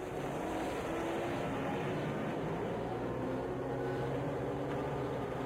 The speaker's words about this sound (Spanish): Tanio acciona el switch del motor y mirando burlón a sus prisioneros pone en movimiento el pesado vehículo.